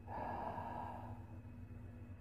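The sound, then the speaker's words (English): A slow, deep breath drawn in and gently let out during guided meditation, soft and airy over a faint steady drone. “breath in and exhale gently”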